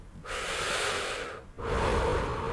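A single slow, loud breath is drawn in with a long airy rush, then released in an equally long, breathy exhale with no other sound.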